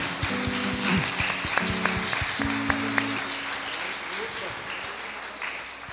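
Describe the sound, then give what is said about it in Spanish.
Audience applause for an honored guest at a community event in San Pedro Atlapulco: dense, steady clapping fills the whole clip, with voices and some tonal sounds mixed in. “Primeramente vamos a darle un aplauso al señor Eduardo”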